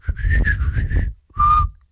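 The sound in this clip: A person whistles alone, first a run of several short, clear notes, then a brief pause and one held, lower note.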